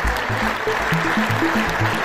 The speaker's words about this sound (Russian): Его выступление в парламенте несколько раз прерывали аплодисменты конгрессменов.